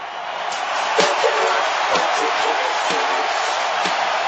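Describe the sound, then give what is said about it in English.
Artificial crowd noise piped into a wrestling hall of fame induction ceremony held without an audience: a dense, steady roar of cheering held at an even, loud level throughout. “Again, no crowd there. That noise is fake.”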